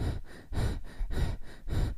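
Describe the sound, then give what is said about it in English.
A person demonstrates the shallow, quick breathing of fright, high in the chest. It comes as a few rapid, soft breaths in an even rhythm, with no talk. “The first type is clavicular breathing. It's very superficial and we usually do this when we are scared. It's something like”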